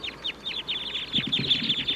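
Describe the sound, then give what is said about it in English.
Wild birds call from the treetops in a steady run of many short, high-pitched notes. A band of low, noisy rustling joins partway through. “The wild birds in the treetops are calling now.”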